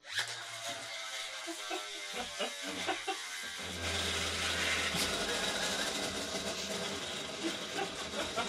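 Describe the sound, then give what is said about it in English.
A gyroscope top whirs as it spins across a table, a dense buzzing hum with rattly ticks that grows fuller and louder after a few seconds and then runs on steadily. “So it's a gyroscope top.”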